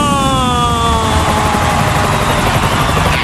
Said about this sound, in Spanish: El vuelo de Ryanair. 5, 4, 3, 2, 1. ¡Aterriza!